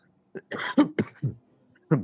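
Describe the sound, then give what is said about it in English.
Smoker's cough: a harsh, rough run of several throaty coughs in quick succession, then a brief pause and one more forceful cough. “smoker's cough.”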